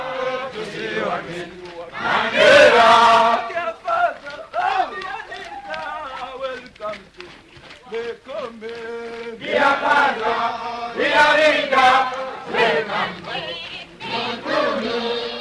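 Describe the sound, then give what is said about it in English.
About 105 students at a vocational training centre in Mikumi chant together as they jog round the campus in their daily morning run. The massed voices rise and fall in a rhythmic, continuous chant with several louder surges. “All 105 students chant as they jog round the campus. It's called the Mchaka Mchaka.”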